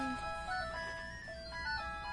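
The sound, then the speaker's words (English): A store phone rings with a melodic electronic ringtone: a quick run of bright tones stepping up and down in pitch, fairly faint over a low background hum. “Oh, who didn't silence their store phone?”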